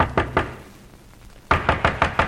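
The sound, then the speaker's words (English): Knuckles knock on the door of an innkeeper in a port town at night: two firm knocks, a pause, then a quicker run of five. “And before the night was over, the Count had come into the town and knocked on the door of an innkeeper of the port.”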